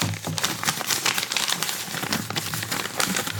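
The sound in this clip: Paper crinkling and tearing as an envelope is opened to draw a card, a dense, continuous rustle with scattered crisp crackles throughout.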